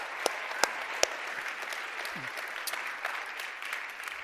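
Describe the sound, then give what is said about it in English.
An audience gives a performance another round of applause: dense, steady clapping throughout, with a few sharper individual claps standing out early on. “Give them another hand, would you? That was awesome.”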